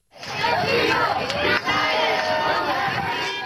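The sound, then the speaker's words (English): Supporters outside the Supreme Court cheer and shout as one loud, steady crowd roar with overlapping voices, sustained across the whole stretch with only a brief dip midway. “In April, supporters cheered as Cecilia Wang walked out of the Supreme Court with her legal team.”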